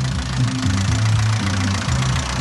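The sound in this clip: A parade float vehicle's engine revs back up while it is put in gear on a rainy day, giving a steady, fairly loud low rumble whose pitch wavers slightly.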